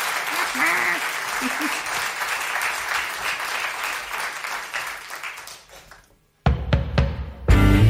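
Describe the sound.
An audience claps in dense, sustained applause that holds steady for several seconds, then thins and fades away before a short silence and some other louder sounds.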